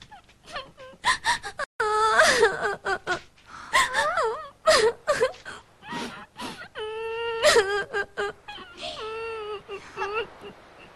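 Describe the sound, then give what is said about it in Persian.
Someone crying in wavering, broken wails and whimpering sobs with gasping breaths between them, loud and repeated throughout. “انگار یکی داره گریه میکنه.”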